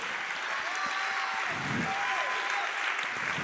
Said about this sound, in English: Somebody clap your hands to the one right now.